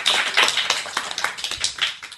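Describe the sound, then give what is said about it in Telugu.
An audience claps for a child's recitation at a school performance, a dense, even patter of many hands that continues throughout with no voices. “అందరు ఒక్కసారి చప్పట్లు కొట్టండి.”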